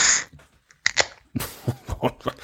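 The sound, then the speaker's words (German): A bottle of Bitburger Fassbrause opening with a bit of spray: a brief fizzing hiss, then scattered sharp clicks and short bursts of foamy, splattering noise. “Da geht äh, die Fassbrause auf. Hat ein bisschen gespritzt.”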